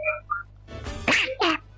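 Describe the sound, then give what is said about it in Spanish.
A voice imitating a cartoon duck, with a few raspy, nasal squawking bursts that follow a brief hummed tone. “¿El Pato Luca se metió? ¿Ah? Me habló el Pato Luca al final.”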